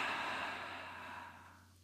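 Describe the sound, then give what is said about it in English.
A single slow, soft exhaled breath during a mindfulness pause, faint and steady, fading gradually toward silence. “another moment of mindfulness, inhaling slowly and exhaling”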